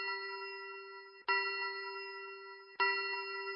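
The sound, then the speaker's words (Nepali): A radio time signal chime marks three in the afternoon with bell-like tones struck about every one and a half seconds. Each strike rings on as a steady, clear tone and fades slowly before the next. “यो radio सैलुङको समय सूचक हो।”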